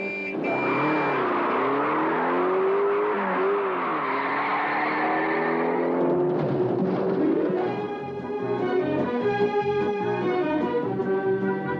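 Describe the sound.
A race car engine roars continuously as the car accelerates away during a race, loud and sustained with sweeping changes in pitch and a harsher, denser tone toward the end.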